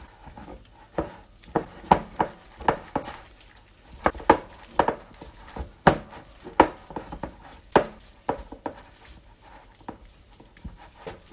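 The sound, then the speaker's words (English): A fresh ginger suet pudding mixture is stirred in a bowl, giving many irregular, dull knocks and taps as the spoon strikes the bowl in an uneven rhythm. “Right, okay, I'll just give it a stir.”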